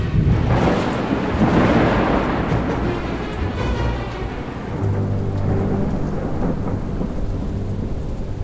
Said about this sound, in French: La tempête souffle depuis maintenant 15 heures.